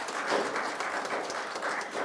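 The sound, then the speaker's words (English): A church audience claps in applause for news of a new grandbaby during Sunday announcements. Dense, moderately quiet clapping holds steady through the whole clip. “So congratulations to the whole Gordon family, and yeah, that's worth a clap.”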